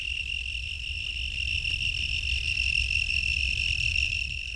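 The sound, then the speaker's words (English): A cricket chirps in a steady, high, continuous trill that holds its pitch throughout, fairly faint, over a low background rustle. “Yep, that's a cricket.”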